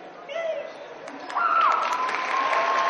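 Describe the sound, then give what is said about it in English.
An audience applauds the winners and competitors of a hall cosplay competition. Clapping builds and grows louder halfway through, with high cheering voices whooping over the hands. “Let's give another round of applause to all of our Hall cosplay winners and all of our competitors.”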